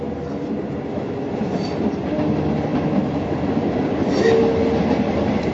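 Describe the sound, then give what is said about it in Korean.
A passenger train from 1944 rolls along the rails with a steady, moderately loud rumble and rhythmic clatter of wheels, continuous throughout with no voices. “줄리안 꽁땅은 엄마와 아쉬운 작별을 하고 형 프랑스와 함께 기차에 올랐습니다.”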